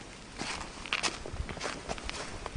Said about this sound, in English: I'm watching, walking in the wash.